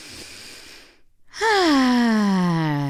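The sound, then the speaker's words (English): A big deep breath: a long, noisy inhale, then a brief pause and a loud, voiced exhale that sighs downward in pitch. “Would you like to take a big deep breath with me?”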